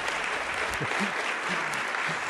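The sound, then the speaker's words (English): Audience applause at a live debate on affirmative action: dense, steady clapping from a crowd that fills the whole stretch at an even level, with no talk over it. “And a round of applause for that.”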